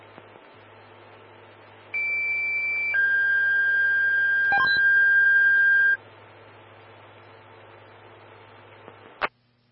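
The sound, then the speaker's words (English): Electronic dispatch alert tones announcing a fire alarm call: one steady tone gives way to a longer, lower tone, about four seconds in all, over faint radio hiss. A brief click follows near the end. “So stand by for tones on a fire alarm.”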